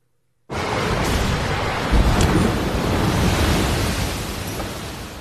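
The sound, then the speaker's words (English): Storm surge waves from a storm's remnants crash onto a Southern California beach. A sudden, loud, broad roar starts abruptly and holds steady, with a heavier surge partway through before slowly easing. “Now, I'm not sure if you could see that as it happened, but a huge tide just came in that shook the entire ground where I'm at right now.”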